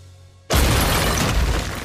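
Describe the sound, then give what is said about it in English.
A brick wall explodes: after a quiet start, a sudden loud crash bursts in and carries on as a dense, roaring rumble of breaking debris. “A brick wall explodes.”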